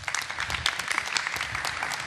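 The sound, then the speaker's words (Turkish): Audience applause for a young guest, a faint, steady patter of many hands clapping that runs without a break for about two seconds. “Bir alkış Enis'e.”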